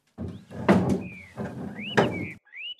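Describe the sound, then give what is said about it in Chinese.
A guest-room door at an inn swings open: two broad, noisy bursts with thin, high squeaks in between and after, like a creaking hinge. “不知过了多久，房门打开”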